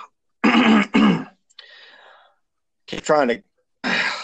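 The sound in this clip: Throat clearing: two harsh, rough bursts close together, then a quieter rasp, followed after a pause by a brief voiced sound and another rough clearing.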